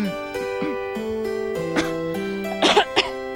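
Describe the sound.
Short, rough coughing bursts break through a steady layer of sustained tonal sounds, with a double burst near the end followed by a final one.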